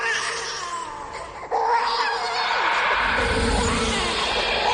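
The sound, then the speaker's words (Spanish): A baby's cry used as a ghostly effect: wailing infant sobs blend into a hazy, eerie wash. The sound stays continuous and fairly loud throughout. “La verdad que sí, eran llantos de bebé, apariciones espectrales y en varias ocasiones un ascensor activándose solo en plena noche.”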